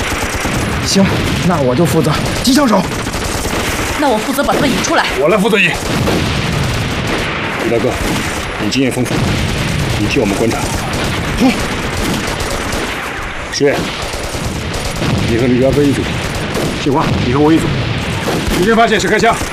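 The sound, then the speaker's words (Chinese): Machine gun fire in a war drama battle scene: loud, dense and continuous bursts of rapid shots with no break for the whole stretch. “鬼子动机枪火力太猛，我们得解决他，不打他是不行的。”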